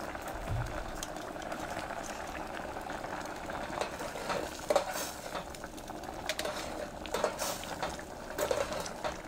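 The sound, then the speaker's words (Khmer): Sticky rice dessert being stirred in a pot, with sugar and a little salt mixed in and frequent stirring to keep the rice from catching and burning: a steady bubbling, scraping texture with a few sharper clinks of utensil against pot. “ជាមួយនឹងបង្អែមមួយនេះគឺយើងត្រូវការកូរវាបានច្រើនដងបន្តិចដើម្បីកុំឲ្យអង្ករដំណើបវានៅបានឆ្នាំងគឺវាខ្លោច”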